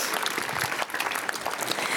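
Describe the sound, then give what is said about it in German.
Applause from an audience fills the whole two seconds, a dense, steady roar of many hands clapping at an even level with no voices over it. “Applaus”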